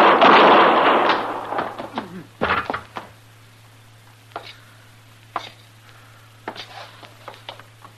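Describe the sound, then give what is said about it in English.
Gunshots ring out in a shootout involving a U.S. marshal. A loud burst opens, followed by a series of sharp, spaced cracks over a low steady hum. “You killed both of them, Mr. Dillon. I didn't even get a shot off.”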